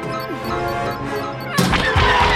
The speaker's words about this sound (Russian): Бомбардировщик сотрясается от удара, и Пейдж падает в отсек с боеприпасами.